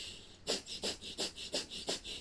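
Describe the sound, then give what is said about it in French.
Rapid, forceful breath-of-fire exhalations during a yoga posture with the feet lifted and arms raised. About six sharp, evenly spaced breath bursts pump out in a quick, steady rhythm, with no talking. “Et dans la posture, à nouveau, on pratique la respiration du feu.”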